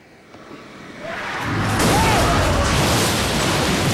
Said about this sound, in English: A truck smashes into the car, which bursts into flames.